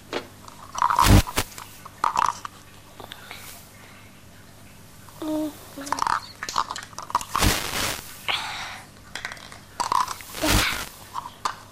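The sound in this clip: Chewing and crunchy biting as someone eats a home-cooked meal, with an elderly grandmother being fed. Sharp crunches come in uneven bursts between quieter chewing, and a voice is briefly heard once.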